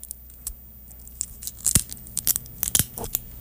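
Dry leaves being picked off a persimmon fruit: faint, crisp crackles and small tearing sounds scattered irregularly over a low steady hiss, with a few louder snaps near the end.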